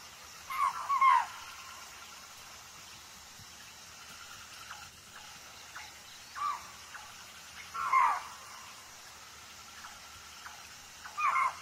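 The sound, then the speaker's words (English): Deer call from across a river in Siberian tiger country: a few short, high, cry-like calls spaced several seconds apart, faint over a steady background hiss. “The deer calls are from the other side of the river.”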